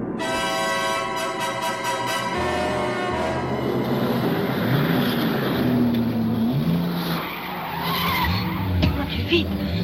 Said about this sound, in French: Pour semer la Securitat, l'as du volant accélère brutalement, conduit la nuit à feu éteint, prend des virages sans freiner.